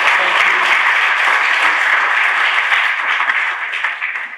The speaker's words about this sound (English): Okay, everybody, please give it up for Mrs. Magda Ropotan.